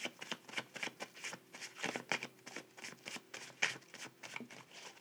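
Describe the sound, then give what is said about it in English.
Tarot cards being shuffled make quiet, rapid riffling flicks in an uneven stream, with many soft papery clicks and no voice. “I'm going to pull some shadow cards about this Queen of Swords.”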